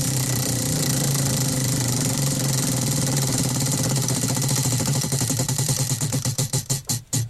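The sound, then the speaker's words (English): A prize wheel loaded with forfeits spins in a game: a loud, dense, rapid ratcheting of clicks that gradually slows, the clicks spreading apart before stopping near the end, with no talking. “spin the wheel, please.”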